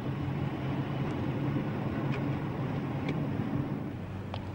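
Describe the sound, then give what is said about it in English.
A police car speeds along a street, heard as a steady low engine rumble and road noise that stays fairly even throughout, with no siren. “The police car speeds along the street and swoops through into a courtyard within. The car stops.”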